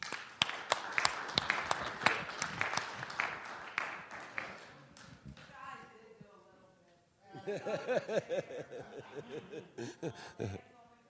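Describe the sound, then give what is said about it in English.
Scattered clapping from an audience applauding the women of an organization, a run of sharp claps that fades before a man resumes speaking. “So give them a hand, please.”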